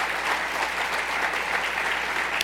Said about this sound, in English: Don't clap, because I only got 3 minutes.